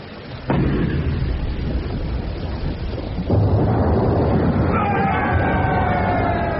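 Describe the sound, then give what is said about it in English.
Naval gun firing a shell that hits a ship: two heavy, loud booming blasts, each followed by a long, rumbling roar. “The shell hits the A-Big, she swings to starboard and sinks like a stone.”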